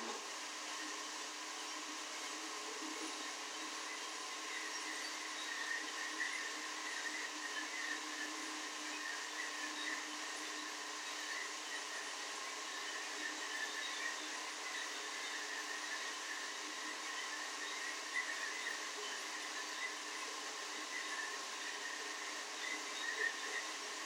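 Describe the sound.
A blender running on its smoothie setting gives a steady, even whirring roar that holds at a constant level with no break. No voices are heard over it.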